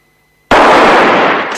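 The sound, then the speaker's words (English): Two gunshots fired at the same moment by two men in a Western street duel beside a wooden sidewalk. They merge into one loud, sharp blast that breaks out of silence and rings on in a broad, slowly fading roar. “Both men shoot at the same time, but it's Valens”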